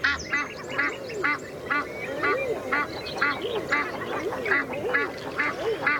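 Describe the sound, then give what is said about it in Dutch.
Ducks quack as the birds wake up. Many loud, nasal calls repeat in a fairly regular rhythm throughout. “Nou, zijn vogels worden ook wakker.”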